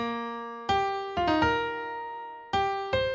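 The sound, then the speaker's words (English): Guitar playing a solo line that moves upward, made of several clear plucked notes, each ringing and slowly decaying into the next, played alone with no voices. “the guitar solo moves up while the bass and the harmony moves down. So the guitar solo goes like this.”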